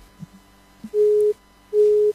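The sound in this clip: Busy tone after a phone call is cut off: two short, steady mid-pitched beeps of equal length separated by a brief gap, preceded by a few faint low knocks.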